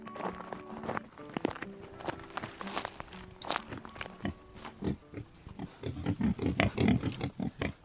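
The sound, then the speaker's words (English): Irish wild boar grunt on a farm on the Kilkenny-Waterford border: many short, rough grunts and snorts, with shuffling steps among them. The grunting grows denser and louder toward the end. “Micheál Hanrahan farms boar near Lister Lynn on the Kilkenny-Waterford border, and he let me get up close and personal with his stock.”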